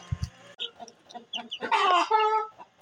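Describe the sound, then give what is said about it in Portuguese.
Hens and chicks clucking beside eggs in a nest: scattered short clucks and soft peeps build into a louder, denser run of calls, with no talk. “Acho que tem quatro pintinhos aqui, né, meu amor? E tem mais dois ovos ali.”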